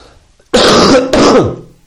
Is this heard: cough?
yes